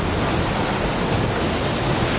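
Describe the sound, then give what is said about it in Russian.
Ocean waves break on the shore in a loud, continuous roar of dense, even noise, with no separate breakers standing out. “После большой волны было уже 5 маленьких. Вот идет 6-я, 7-я.”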